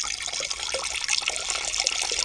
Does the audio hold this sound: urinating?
yes